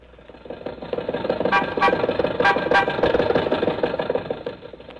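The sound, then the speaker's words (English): An old Maxwell car's engine runs as it drives, a rough, steady chugging drone with a few sharp high-pitched rattles in the middle, alone with no voices. “Mary, Don, and I got into Maxwell, and Rochester drove us over to Mr. Mortimer's office on Hollywood Boulevard.”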